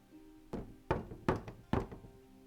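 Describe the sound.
Knocking on a door: a few dull, solid thuds in an uneven rhythm, moderately loud, with no voices.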